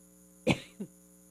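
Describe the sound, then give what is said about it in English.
A person coughs twice: a strong, harsh burst followed by a shorter, weaker one, alone with no talk around it. “Hang on a second while I cough for a second.”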